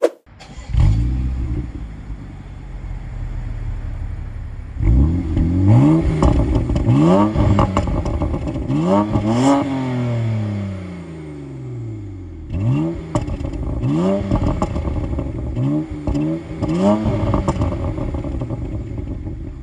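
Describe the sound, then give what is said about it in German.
An unusual BMW car engine idles and revs in repeated surges, each blip climbing and falling in pitch, with a cluster of sharp, loud rev bursts before it settles back to a rumbling idle. “Und zwar ist es ein BMW, aber kein gewöhnlicher BMW.”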